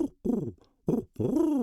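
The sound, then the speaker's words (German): An owl hoots in a fairy-tale scene, giving a short series of low, round hoots with gaps between them. The hoots come alone, without talk. “Erst eine Eule, dann ein Rabe und zuletzt ein Täubchen.”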